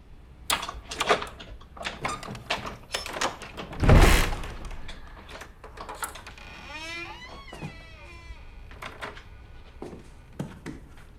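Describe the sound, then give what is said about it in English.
A skeleton key works the lock of an attic door, with scattered small clicks and rattles, one heavy thunk in the middle, and a brief creak as the door swings open, followed by a few more soft knocks. “She unlocks the door and opens it.”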